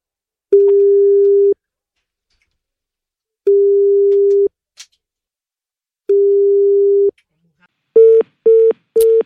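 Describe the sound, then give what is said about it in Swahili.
A telephone rings out while calling someone: three long, steady mid-pitched tones separated by even pauses, followed by three shorter, quicker beeps at the end, with a couple of faint clicks between. “Mzee anaitwa nani? Wacha tumpigie tena.”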